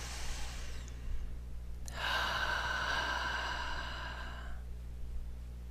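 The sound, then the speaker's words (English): A single deep breath: a soft, airy inhale followed by a longer, louder breathy exhale that gradually fades, with a low steady hum underneath. “nice deep breath”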